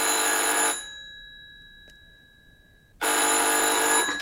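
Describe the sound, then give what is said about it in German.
A telephone rings outside the room with a loud, shrill electric bell tone. One ring burst is followed by a quiet pause, then a second ring burst begins. “Gleich klingelt draußen das Telefon.”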